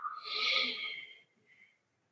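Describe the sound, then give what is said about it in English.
A single soft exhaled breath is let out during a seated, guided breathing exercise. The airy rush swells, then fades into a faint trailing puff before silence, heard alone. “we'll exhale together. 3, 2, 1, exhale.”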